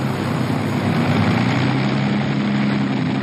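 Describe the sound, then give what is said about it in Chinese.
Bomber aircraft engines of a de Havilland Mosquito drone steadily, a continuous low hum under broad rushing noise that holds unbroken and fairly loud throughout. “德哈维兰公司的文式轰炸机。”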